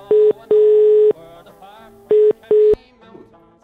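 Telephone line tone on a live call to a caller: four buzzy, mid-pitched tone bursts of unequal length, two close together at the start and two more a second later, with quiet gaps between.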